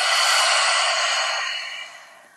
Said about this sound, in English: we're going to do one inhale and exhale to empty our breath. And on the second breath, we'll om together. So we'll breathe in. Breathe out.